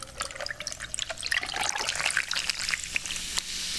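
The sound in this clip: Cola pours over huge ice cubes, a trickling liquid splash that builds into a louder fizzing, crackling hiss and holds steady to the end.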